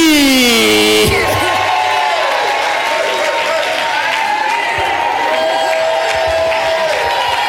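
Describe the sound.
Loud, sustained cheering, whoops and applause from a church audience welcoming the pastor's wife, a reverend, with many voices shouting together throughout.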